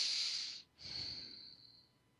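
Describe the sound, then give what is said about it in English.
A deep breath during a relaxation exercise: a soft, airy, hissing inhale, then after a brief pause a longer, gentler exhale that fades out, quiet and alone. “So let's take a few deep breaths.”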